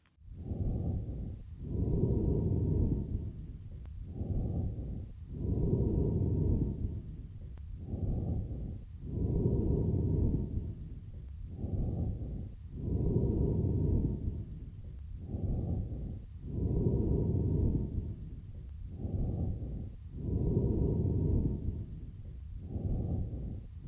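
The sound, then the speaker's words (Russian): Amphoric breathing from a patient with a large left lung abscess: many slow, even breaths alternate in a steady rhythm, each with a hollow, resonant quality like air blown across the narrow neck of an empty vessel. “Прослушайте амфорическое дыхание, записанное у больного с крупным абсцессом левого легкого.”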